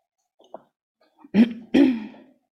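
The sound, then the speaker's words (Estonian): A person coughs directly into a microphone: a couple of small breathy sounds lead into two harsh, close coughs, the second longer and rougher. “nüüd ma köhin otse mikrofoni”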